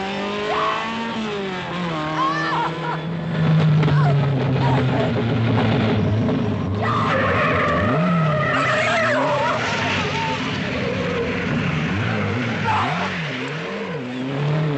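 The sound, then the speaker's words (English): Tires skid and squeal as a car is driven recklessly in a 1962 film scene, a sustained screeching wail that wavers in pitch and stays loud for the whole stretch. “Kirk Douglas having a nervous breakdown and, well, he goes crazy while driving with Sid Charisse”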